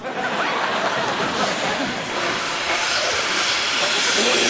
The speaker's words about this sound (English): Got a built-in compressor and motor. Just flip them on